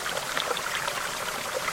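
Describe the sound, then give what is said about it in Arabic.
River water flowing, played back from an online video: a steady, continuous rushing wash with faint bubbling, loud and unbroken throughout. “حط لنا هيك على دور لنا على اليوتيوب صوت صوت ماء مثلا او صوت نهر, شوف هيك بيسترخي الواحد. سمعنا ها.”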